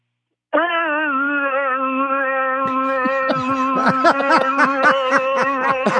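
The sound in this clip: A voice imitates a noise from a 2006 Hyundai Elantra after several minutes of city driving at 35 to 40 mph: a steady, nasal droning hum that soon breaks into a rapid, sputtering burble layered over the sustained tone.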